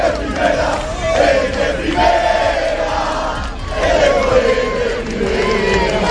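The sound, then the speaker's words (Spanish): Deportivo fans chant in unison while celebrating the club's promotion to Primera División at the Fuente de Cuatro Caminos fountain. The loud, rhythmic chanting rises and falls in repeated waves. “Sonido en las últimas horas en la Fuente de Cuatro Caminos. De nada valió el vallado preventivo del epicentro de las celebraciones blanquiazules.”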